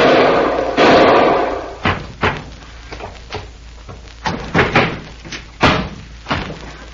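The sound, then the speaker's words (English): A body tumbles down a flight of stairs in a radio drama effect, opening with a loud noisy burst and followed by a long series of heavy, irregular thumps and thuds. “If your shot did not, that fall down the stairs has broken his useless neck.”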